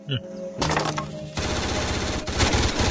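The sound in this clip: Rapid machine gun fire, loud and sustained, breaking into a dense rattling burst after a brief quieter opening and continuing almost without pause to the end.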